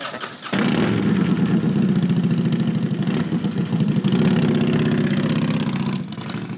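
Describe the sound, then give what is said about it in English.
Motorcycle engine running steadily during a night ride in Texas, a loud, continuous low throbbing drone with a rapid pulsing rhythm that holds for nearly the whole clip before easing off at the end. “Out there, you're just a badass on a bike, and that's it.”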